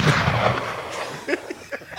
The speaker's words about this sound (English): Shots fired.